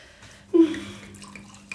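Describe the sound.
Prosecco poured into plastic cups at a birthday celebration: a short, splashy gush of liquid starts about half a second in, then settles into a quieter fizzing trickle, with a faint tap near the end.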